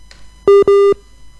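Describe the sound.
Telephone busy tone after a call disconnects: two steady, mid-pitched electronic beeps, the second slightly longer, over faint background hiss.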